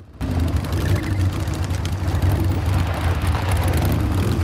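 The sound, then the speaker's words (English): Motorbikes driving through an abandoned parking garage. Their engines roar in abruptly just after the start and hold as a loud, steady, low droning rumble to the end. “The bikes drive through the garage.”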